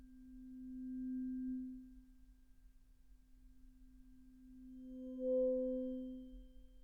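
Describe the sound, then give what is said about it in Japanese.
Tuning fork ringing with a pure, low, steady tone, faint throughout, swelling and fading away twice with a soft higher overtone. “こうして音叉の音色に耳を傾けていると、だんだんと心の波形もまっすぐに静かに落ち着いていきませんか？”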